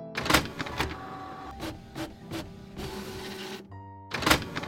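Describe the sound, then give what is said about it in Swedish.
A printer printing out pages: mechanical whirring and buzzing in a series of short bursts with brief pauses, steady motor tones and a few clunks, with no voices. “Så idag ska ni få lite fakta om pizza. Jag skriver ut faktan.”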